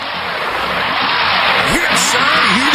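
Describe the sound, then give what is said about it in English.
A tow truck (wrecker) arriving to pull a car stuck in snow, heard as a loud, steady engine roar throughout, with a few brief whining tones that sweep up and down. “That is the sound of the wrecker. That is the sound of the tow truck. That is the sound of your car stuck in the snow and the tow truck is on its way.”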